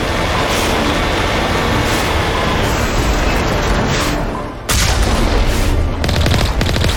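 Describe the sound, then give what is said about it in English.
Video game gunfire aimed at Geth tanks: a sustained, rapid stream of shots merging into a continuous loud roar, dipping briefly near the middle before resuming at full strength. “See, the thing is that this gun operates over a longer range than the game will display hit point indicators for. So I can fire at these Geth tanks”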